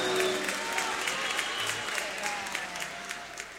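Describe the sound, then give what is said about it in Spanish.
Applause mixed with some cheering from a crowd after a folk music performance, loud at first and easing slightly toward the end. “Aplausos para los hijos, los barrios.”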